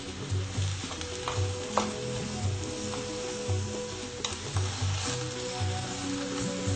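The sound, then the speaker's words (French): Food sizzles and fries steadily in a pan while being stirred, with a regular rhythm of soft scraping strokes running under the constant hiss. “Il faut remuer. Donc voici ce à quoi ça ressemble quand ça cuit. Voilà. Donc une fois qu'on l'aura bien grillé, on va l'ajouter à la sauce.”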